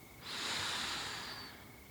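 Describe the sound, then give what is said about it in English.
One slow, deep breath during a guided relaxation: a soft, airy hiss that swells quickly, holds, then gradually fades, with no other sound. “I want you nice and relaxed. Another deep breath in”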